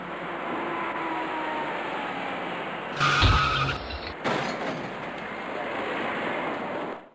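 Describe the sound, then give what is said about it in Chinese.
Traffic at a junction under a bridge, where an electric bicycle and a car collide: a steady roar of passing vehicles, then a sudden louder burst midway, a second brief surge, and the noise fades at the end. “口里面原本挺有规矩的行驶状态，即将被一起交通事故所打破。此时，一位电动自行车的骑车人自南向北而去，他想要通过桥下的路口。”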